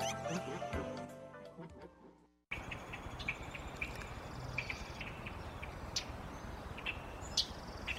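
Birdsong in a wetland: scattered high chirps and short calls over a dense, steady insect-like hiss.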